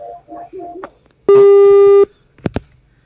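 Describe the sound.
After brief speech, a telephone busy tone follows a phone call that was cut off. One steady buzzing tone, rich in overtones, lasts under a second and is followed by two quick clicks.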